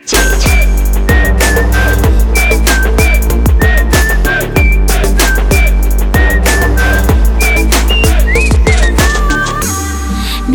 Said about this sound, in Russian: хватит свистеть. Хватит свистеть.